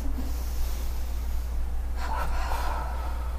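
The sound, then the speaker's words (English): A faint breath is exhaled through the mouth during a breathing exercise, a short puff followed by a longer breath out, heard over a steady low hum. “And then you exhale a short and a long. Are you exhaling with your mouth? And exhaling through the mouth. Inhale through the nose, exhale through the mouth.”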